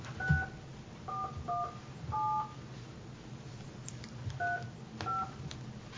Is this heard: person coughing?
no